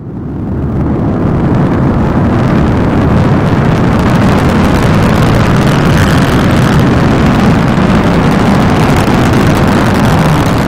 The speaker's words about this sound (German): Mit dem Start einer Weltraumrakete begrüße ich Sie und euch